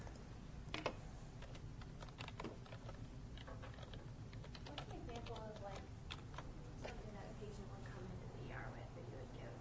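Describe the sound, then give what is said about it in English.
Typing on a computer keyboard: faint, quick key clicks patter in uneven bursts throughout, over a low steady background. “Here, I'll type it up for you.”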